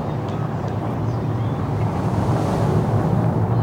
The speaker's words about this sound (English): There's a strong wind and a thick black cloud is covering the volcano. I can't see anything. Wow, it's so windy.